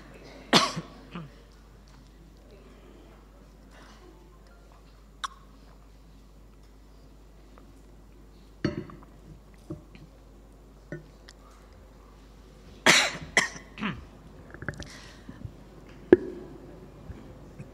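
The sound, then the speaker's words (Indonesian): Coughing in a quiet setting during a philosophy study gathering, a few scattered throaty coughs and throat-clearings that stand out sharply against near silence and come in a tighter cluster near the end. “Batuk.”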